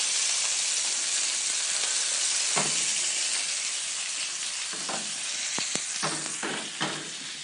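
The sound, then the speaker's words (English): Loud, steady sizzling of octopus or squid searing in a hot pan, a dense continuous hiss with a few sharper crackles and pops near the end. “Best way to braise an octopus or squid, unless you want it to just have a really subtle flavor, is to really sear it.”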